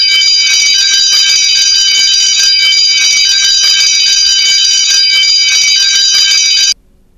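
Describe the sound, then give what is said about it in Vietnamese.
A school class bell rings loudly and without a break for about six and a half seconds. It is a steady, bright, metallic ringing tone that then cuts off abruptly. “Tiếng chuông lớp học vang lên.”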